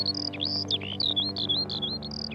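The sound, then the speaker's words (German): A lark sings a quick run of high, varied chirps and warbling trills in short bursts. The bright notes ride over a steady low hum. “Graubraun gesprenkelt passt sich die Lerche ihrer Umgebung an. Sie lebt auf Wiesen und Weiden.”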